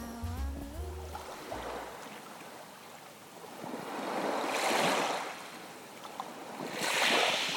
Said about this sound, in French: Mais quoi ? Mais la mer, bien sûr.